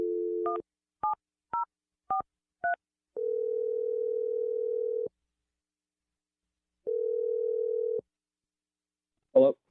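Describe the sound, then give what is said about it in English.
Telephone dial tone giving way to five short keypad dialing beeps, then two long steady ringing tones separated by a pause, ending with a brief sharp burst. “I'm going to dial Jonathan's number right now. Here we go.”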